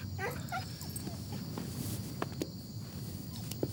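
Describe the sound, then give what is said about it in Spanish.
A small female dog whimpers, giving a few short, high-pitched yips near the start, followed by quieter shuffling and light footstep-like ticks under a steady background hiss. “Qué perrita más lista. Y eres muy bonita.”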